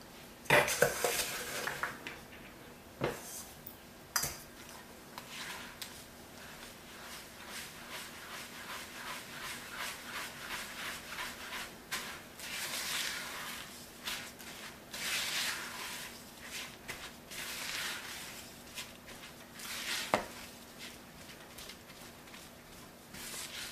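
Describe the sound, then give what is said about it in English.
Ingredients seasoned with cardamom powder are stirred in a bowl with a utensil, giving many repeated scraping strokes and light clinks against the bowl, plus a few sharper knocks, with no talk. “Okay, just mix it. Now I'm gonna be doing the milk powder.”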